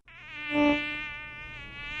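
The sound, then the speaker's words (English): Mosquitoes buzz in a steady, thin, high-pitched whine that swells briefly near the start and then holds level and fairly loud, with no voices. “with certain very irritating, buzzy little critters, mosquitoes.”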